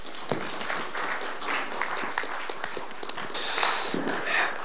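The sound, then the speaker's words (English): An audience clapping to welcome a pastor as the next speaker: a dense, steady patter of many hands that grows slightly fuller toward the end. “Let's put our hands together and welcome Pastor Joe.”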